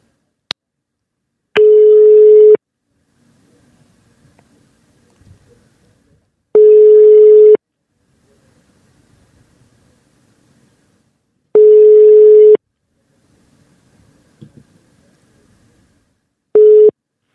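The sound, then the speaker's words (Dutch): Telephone ringback tone while placing a call: four loud, steady, mid-pitched one-second beeps spaced about five seconds apart, the last cut short, with faint muffled sounds in the gaps and a brief click at the start. “we gaan eens even bellen met Justin”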